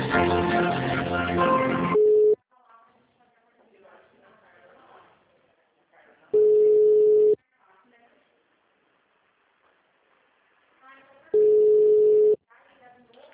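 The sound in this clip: A telephone tone follows a dropped call: a steady single-pitched beep sounds three times, separated by long gaps of faint background, after a voice speaks at the start.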